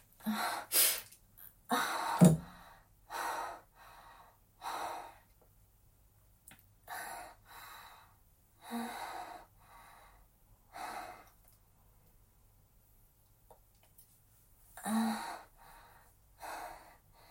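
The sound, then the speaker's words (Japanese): A person breathes heavily, gasping and catching their breath. The breaths come as many loud, irregular bursts separated by short pauses, with a long gap before one final breath. “ちょっと呼吸を整えます。”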